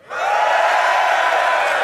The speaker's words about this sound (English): Before we leave the stage, can we get a straw poll here with a cheer? Who thinks Clare is going to win?